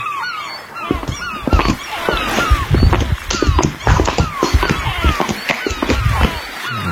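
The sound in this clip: Seagull calls sound as many short, repeated descending cries over loud thuds and scraping from a dog running on a laminate floor.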